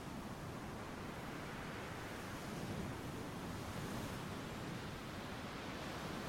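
Crashing ocean waves make a soft, faint, steady wash of surf noise, swelling slightly in the middle, with no voices.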